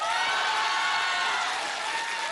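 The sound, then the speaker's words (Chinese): Warm applause from a theatre audience at a comedic cross-talk show, a dense, steady wash of clapping hands with faint cheering mixed in, holding an even loudness throughout. “没想到 什么呀？ 居然得到了这么热烈的掌声。”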